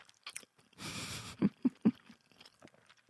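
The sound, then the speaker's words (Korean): Chewing on salmon sushi makes soft, wet mouth sounds: a brief rustling burst, then a few muffled squelchy bites in quick succession, with no talking over them. “연어 초밥 먹고 있습니다, 제가. 네. 지금 보이는 방송으로 보시는 분들 아니면 그냥 듣고 계신 분들도 많이 계실 텐데, 네, 연어 초밥을 먹고 있고요.”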